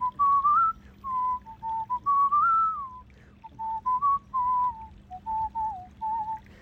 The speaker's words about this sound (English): My whistling, more than anything, is a form of self-expression.